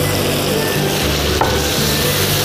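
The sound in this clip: Loud, steady sizzling of chicken being stir-fried in a pot with salt and soy sauce: a continuous dense hiss over a low rumble, broken by one brief scrape near the middle, with no talking.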